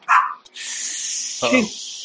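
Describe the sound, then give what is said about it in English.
A guard dog barks twice, two short sharp barks with a pause between them, while a steady high hiss runs underneath. “guard dog. Somebody woke the guard dog up.”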